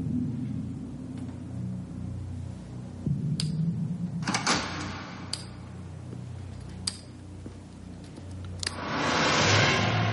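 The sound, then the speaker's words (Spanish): A door shutting, with a few sharp knocks and thuds over a steady low rumble; the clicks are scattered rather than evenly spaced, and no clear footsteps follow. “cierra la puerta y él se marcha lentamente.”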